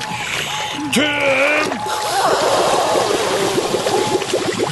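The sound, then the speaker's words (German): Paddle strokes and splashing water as a boat is paddled along a river, with a steady wash of flowing water and quick, small splashes that grow busier through the second half. “Los, paddeln”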